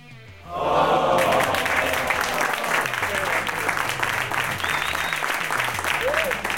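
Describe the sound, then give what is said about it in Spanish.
A canned applause sound effect, a recorded crowd clapping that bursts in abruptly after a short quieter lead-in and then holds dense and steady to the end, with a couple of brief whistles rising above it. “Sí, amigos, estamos hablando de los aplausos enlatados.”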